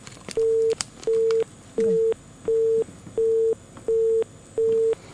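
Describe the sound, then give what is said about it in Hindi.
A busy tone sounds after a caller's phone line cuts off: seven evenly spaced, steady mid-pitched beeps, each about a third of a second long, over faint background hiss. “चलिए आपका phone जो है फिर से cut गया है”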